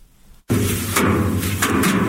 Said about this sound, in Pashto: د کندهار په ډنډ ولسوالۍ کې کروندګر خپل راټول سوي د ریحانو حاصلات ټکوي تر څو ریحان له بوټو جلا کړي.